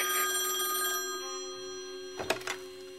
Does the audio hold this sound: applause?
no

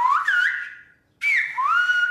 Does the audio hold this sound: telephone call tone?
no

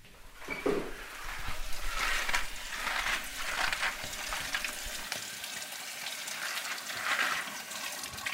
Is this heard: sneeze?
no

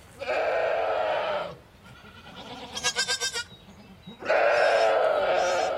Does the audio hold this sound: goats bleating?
yes

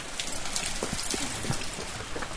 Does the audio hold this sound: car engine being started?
no

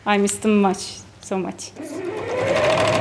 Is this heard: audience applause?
no

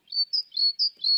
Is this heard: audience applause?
no

